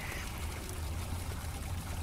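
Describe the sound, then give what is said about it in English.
Water teeming out of a door and spreading into a corridor, a continuous rushing, splashing flow with steady loudness and no breaks. “There's water teeming out of this door, and it's spreading into this corridor”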